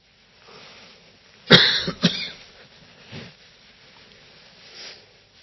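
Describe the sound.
Coughing from a tickle in the throat: two harsh, forceful coughs in quick succession, then a fainter throat sound, with quiet breathing before and after.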